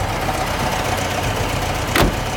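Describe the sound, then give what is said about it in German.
An American military supply truck engine runs in a steady, even drone, with a brief louder burst near the end. “die hatten Lastwagen und zwar zigtausende. Mit denen haben sie alles von den Schiffen an die Front transportiert. Und mit so einem Lastwagen ist der John eben mitgefahren.”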